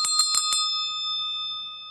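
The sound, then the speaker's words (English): A bell struck four times in quick succession to welcome a first-time caller, bright metallic strikes whose clear ringing tones linger and slowly fade after the last hit. “You get the bell.”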